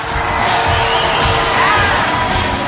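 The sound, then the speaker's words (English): A raucous crowd whoops and cheers at a brutal hand-to-hand fight, a loud, continuous roar of many voices with scattered shouts rising above the mass. “Danny looks sick while the raucous crowd whoop and jig.”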